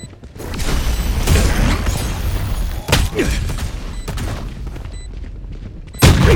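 Gunfire in a competitive shooter video game, heard as a few sharp, loud cracks over a dense, rumbling bed of game sound.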